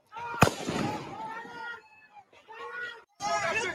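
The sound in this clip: A single sharp gunshot rings out from a video being watched, a brief loud crack followed by ongoing talk and sound from the playback.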